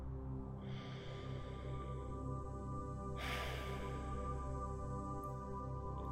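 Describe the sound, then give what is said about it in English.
A single slow breath in and out through the nose rises softly over a steady, humming tonal drone that continues throughout. “Take one more deep breath in through the nose and out through the nose.”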